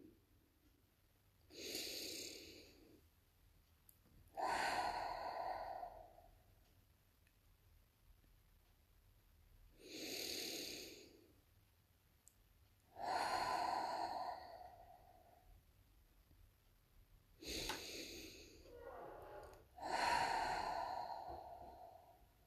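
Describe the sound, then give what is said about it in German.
Three deep breaths during a short meditation, each a softer drawn-in inhale followed by a louder, sighing exhale, evenly paced with quiet pauses between them. “Achte nun nochmal auf deinen Atem. Nimm drei tiefe Atemzüge.”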